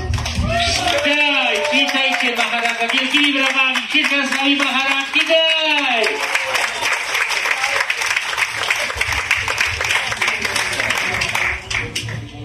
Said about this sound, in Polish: Witajcie Mahārāja, wielkimi brawami, Śrīdhara Swami Mahārāja, witaj!